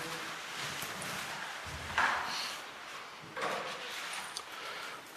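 A tabernacle door being closed in a church: a few soft wooden knocks and clicks over a quiet, hushed background.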